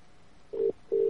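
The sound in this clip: A telephone ringback tone on an outgoing call: a short, steady mid-pitched tone, a brief pause, then a second steady tone that runs to the end.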